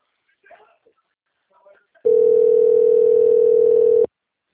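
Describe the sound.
A telephone ringback tone on an outgoing call plays as one loud, steady two-second beep that cuts off sharply. A few faint, brief murmurs come before it.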